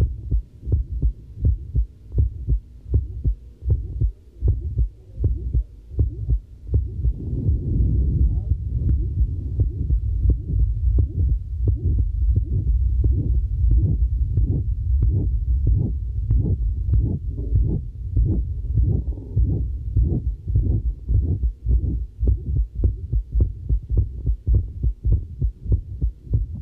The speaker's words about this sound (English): the Valsalva maneuver, we'll hear an increase in the loudness of the obstructive murmur, and several beats into the strain phase, you'll begin to hear a change in the character of the murmur as he begins to develop mitral regurgitation.